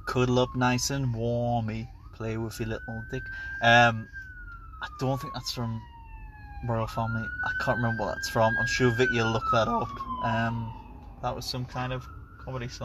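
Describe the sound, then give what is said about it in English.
An ambulance siren going past, its slow wail sliding up and down several times beneath a man's voice singing a comedy song and then talking. “And that was an ambulance going past.”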